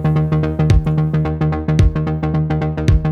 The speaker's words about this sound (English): Okay, and here come a kick.